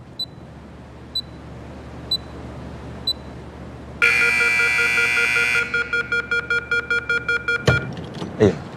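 Electronic timer beeping after a door is locked, recalling a bomb countdown: four faint evenly spaced beeps, then a loud sustained electronic tone, then a rapid series of sharp beeps cut off by a thump.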